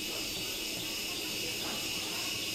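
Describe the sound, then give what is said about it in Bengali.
Crickets chirp in a faint, continuous high-pitched shimmer that holds steady without breaks, over a low background hiss. “ওই যে ঝিঝির শব্দটা বেড়ে যাচ্ছে”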